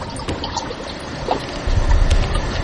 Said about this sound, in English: Okay, pump's running. It's working.